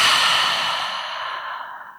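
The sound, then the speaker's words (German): A deep breath let out through an open mouth: one long, airy, breathy exhale that fades steadily in loudness over two seconds. Nothing else is heard. “Tief durchatmen ist immer gut. Einmal tief ein durch die Nase und durch den geöffneten Mund aus.”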